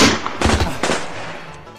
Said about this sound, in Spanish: Vamos a poner el tiro de. Arriba, arriba, arriba. Así ah, sí, vamos a tirar el tiro, vamos a tirar el tiro.